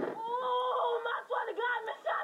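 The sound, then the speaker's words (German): An excited girl screams and squeals in a sustained, high-pitched voice that wavers up and down for about two seconds, with a few brief dips in loudness. “Und das Mädchen ist eigentlich aufgeregt und schreit ein bisschen rum.”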